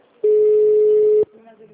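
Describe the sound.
A telephone line rings while a call goes through to a company department: one long, steady electronic tone of about a second, loud and flat in pitch, then a faint, muffled line.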